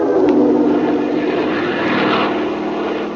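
Steady, loud engine drone of an airplane banking toward an airfield, a broad rumbling roar that holds an even level throughout and eases off slightly at the very end, with no voices.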